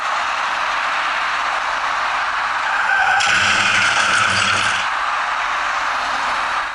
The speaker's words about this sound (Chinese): 驾驶那辆深色小客的司机显然没有注意观察路面上的设施，由于对车身控制不力，造成深色小客撞上出口处的隔离带并骑了上去，